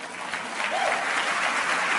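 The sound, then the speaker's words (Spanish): Audience applause for Enrique Flores during a motivational talk, starting softer and swelling to a thick, steady clapping from many hands that carries on to the end. “Denle un aplauso a Enrique Flores, por favor.”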